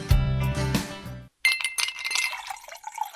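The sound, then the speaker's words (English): Cool water is poured into a glass. A bright glass clink comes first, then a short gap, then a steady splashing pour that runs to the end. “What's that? That's the sound of your favorite college mascots pouring a glass of cool, refreshing water.”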